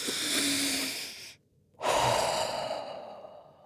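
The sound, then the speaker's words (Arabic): A sheep character in a children's story takes a deep breath: two long, airy breath sounds separated by a brief silent pause, heard alone without talk. “قعدت بسبوسة في الكرسي المريح وأخدت نفس عميق”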